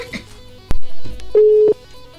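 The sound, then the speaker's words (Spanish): Telephone tones as a call is placed: a sharp click, then a steady mid-pitched beep lasting about a third of a second, with voices talking around it. “Ahí estamos llamando, ¿se escucha ahí?”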